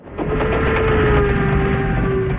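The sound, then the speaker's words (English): A moving train carrying people between camps, a loud, steady rumbling roar with a sustained tone that falls slightly in pitch running through it, and no voices. “So there we were, on a train to some place we never knew.”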